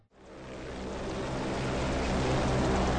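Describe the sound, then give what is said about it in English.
A U.S. Jayhawk helicopter lifts off from the ramp. Its dense, rushing roar swells steadily from near silence to a loud, continuous din over a deep, constant rumble, with no voices. “Out on the ramp, the U.S. Jayhawk lifts off first. It circles around and hovers near the end of the runway”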